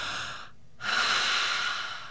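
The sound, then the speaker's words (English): A person demonstrates deep diaphragm breathing with a soft, airy breath, a brief silence, then a longer, fuller and louder breath that slowly fades. “we're going to breathe deeply and fully down into our diaphragm. So these breaths aren't going to be like, that's too high. They're going to sound like,”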